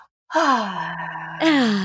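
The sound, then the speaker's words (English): Deep, audible breath with a voiced, sighing exhale, drawn out for over a second and then swelling again. It is heard alone, with no speech. “Breathe. Breathe more. Yes. Yeah, absolutely. So important. I'm doing it right now.”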